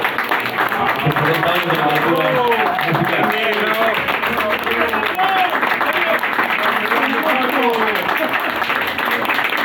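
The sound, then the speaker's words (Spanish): An audience at a tribute event marking a writer's forty years of rock literature breaks into long, unbroken applause, loud and steady, with voices and cheers rising through the clapping. “Pido un gran aplauso primero para Fabio Sala.”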